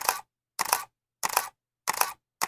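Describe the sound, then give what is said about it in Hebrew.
Five camera shutter clicks sound at a steady pace as a group takes a selfie, each a crisp, bright mechanical burst separated by silence. “היי חבר'ה, יש פה תמונה שלו במדים, בואו נעשה איתו סלפי.”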